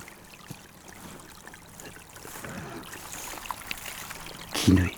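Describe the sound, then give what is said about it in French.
A small trickle of water flows steadily and faintly, a soft continuous wash of thin splashing, with one brief louder disturbance near the end. “Écoutez encore une fois, auditeur, ce petit filet d'eau.”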